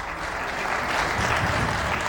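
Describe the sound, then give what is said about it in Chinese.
Applause from an audience at a political speech, a steady, moderately loud wash of clapping that runs without a break through the whole short moment. “过了一会儿，不知是谁带了头，才稀稀拉拉地响起了几声掌声。”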